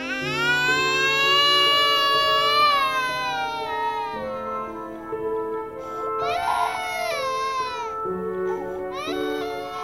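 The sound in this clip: A baby girl cries in loud, sustained, wavering wails that run almost without a break, with a brief dip midway before the crying resumes.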